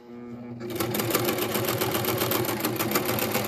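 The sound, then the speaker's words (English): A sewing machine stitching pockets onto a skirt starts up after a short motor hum, then runs at a steady, rapid needle rhythm, loud and continuous to the end. “I'm sewing some pockets on a skirt.”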